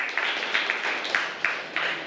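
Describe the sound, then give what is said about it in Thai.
Classmates applauding a student after a class science activity report: steady, moderately loud clapping from a small group, with sharper individual claps standing out at irregular intervals. “ปรบมือเพื่อนด้วยนะครับ”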